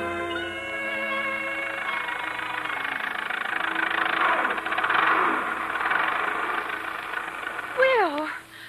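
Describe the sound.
An automobile motor runs with a steady low hum beneath people talking, the engine sound holding throughout.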